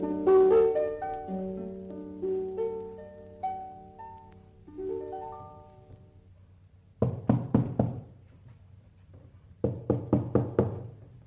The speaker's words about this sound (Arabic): كل ما خبط على باب محدش يرد.